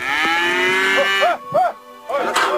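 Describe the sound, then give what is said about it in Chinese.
Beef cattle mooing on a farm in Inner Mongolia at morning feeding time: a long, deep, drawn-out moo, followed by several shorter, clipped moos and lowing calls. “一大早，内蒙古的肉牛养殖户呼格吉勒图早早地起来，在饲养员的帮助下准备给牛喂饲料。”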